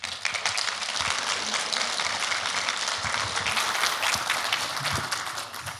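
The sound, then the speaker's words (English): A church audience applauds as a guest speaker comes forward, with brisk, dense clapping that holds steady throughout. “Andrew, would you please come? Would you please welcome him?”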